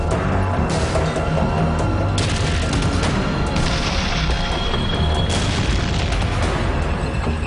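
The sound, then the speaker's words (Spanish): Dense gunfire and explosions from a World War II tank battle in fog-covered Lorraine between German tanks and American M-18 tank destroyers. Continuous heavy booms and rattling bursts of firing stay loud throughout, with no talk. “El sonido de los disparos alerta al pelotón de cazacarros M-18 estadounidense.”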